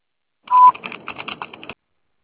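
A single steady telephone answering machine beep, followed by a rapid string of short, clicky electronic tone bursts, all fairly loud with no voices.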